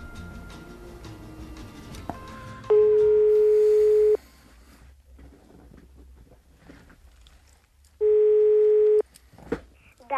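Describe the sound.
A telephone ringing tone sounds on a call being placed: two long, steady, even-pitched beeps separated by a several-second pause, over a faint, quiet background.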